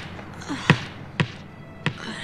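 Three bounces of a ball, each a short, sharp thump, spaced unevenly over about two seconds against quiet background noise.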